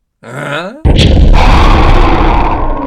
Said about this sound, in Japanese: エラっぽい部分が見えていたんでな、爆弾をねじ込んでやった。